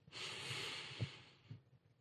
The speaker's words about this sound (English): Now, take a deep breath